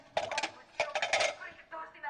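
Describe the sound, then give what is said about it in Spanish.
Plates and dishes being handled clink and clatter in a few bright, ringing bursts, with short pauses between them. “Deja los platos, mamá. Ya recojo y friego yo.”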